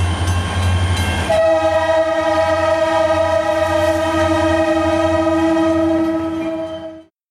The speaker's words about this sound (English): did anybody get the number of that locomotive?